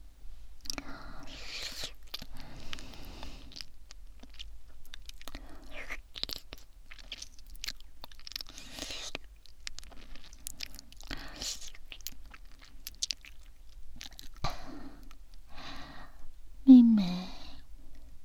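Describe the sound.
Food being eaten: many crunchy bites and wet chewing sounds repeat at an uneven pace through the whole clip, with soft voices murmuring quietly in between.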